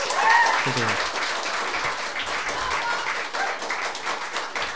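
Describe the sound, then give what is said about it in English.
Audience applause at a live evening event, a steady, dense clatter of many hands clapping throughout, with a brief voice near the start. “We have an applause meter to see who gets the most applause here over the course of the evening.”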